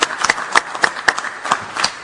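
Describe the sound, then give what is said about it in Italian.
Applause from an audience welcoming a speaker to the podium at a formal event: a steady patter of many hands clapping in uneven rhythm, moderately loud, with sharper individual claps standing out. “raggiungi il podio, accogliamolo con un applauso”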